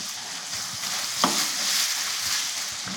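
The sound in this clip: Diced red onion sizzles in a pan over turned-up heat as it joins a mixture. A broad, steady frying hiss carries on throughout, with a brief stirring scrape partway through and no voices.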